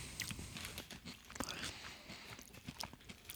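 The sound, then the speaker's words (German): Crunchy parsnip vegetable chips being bitten and chewed, with many quick, sharp crunches in an uneven rhythm. The sounds stay faint and close throughout, with no talk over them. “Ja, komm, ich probiere mal so eine Pastinake.”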